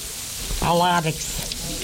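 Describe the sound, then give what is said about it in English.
Bread sizzles as it fries, cooked alongside soup for an Aleut Independence Day meal. A soft, steady hiss runs throughout, with a brief voice speaking over it partway through. “We're making million-dollar soup and fried bread.”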